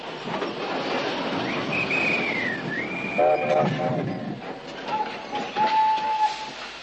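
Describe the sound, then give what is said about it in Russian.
An armoured train stops at a railway station with rail rumble and a long whistle that dips in pitch. Shorter, steadier whistle tones follow over the rolling noise. “И по чистой случайности на станции Гребешки остановился бронепоезд командарма Седых.”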